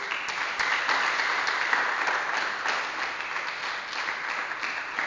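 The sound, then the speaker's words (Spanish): Audience applause at a live church gathering: steady, dense clapping from a crowd, sustained and even in loudness for the whole stretch, with no talk over it. “así que démosle un aplauso también a ellos.”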